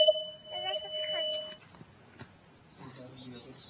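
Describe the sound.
A strange noise from the caller's end of a phone line sounds as two steady, high electronic tones that hold under a faint voice for over a second, then stop while talk continues.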